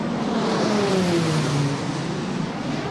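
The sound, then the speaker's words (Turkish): Loud, steady engine roar of two Hürkuş turboprop trainer aircraft with 1600-horsepower engines flying a salute flyover after their delivery ceremony, a droning tone gliding slowly downward in pitch over three seconds, no voices. “TUSAŞ tesislerinde teslimat töreni yapılan iki Hürkuş şu an ilk selamlama uçuşunu gerçekleştiriyor.”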